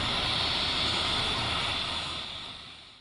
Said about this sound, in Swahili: Ndege ya Umoja wa Mataifa inawasili na kutua.